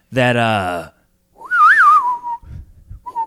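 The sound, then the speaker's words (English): A person whistles a short western-movie style tune, a clear melodic phrase that rises and falls in pitch, after a brief voiced sound and with faint low noises trailing after. “I'm really bad at whistling. No, it's better than I thought you would be. But you know that song, the westerns, and they whistle”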